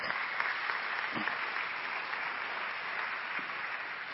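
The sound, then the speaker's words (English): Audience applause welcomes two families to the stage at a parenting panel, a dense, steady wash of many hands clapping that holds evenly for about four seconds. “We're going to welcome the Gurman family and the Benson family. Let's give it up for these guys this morning.”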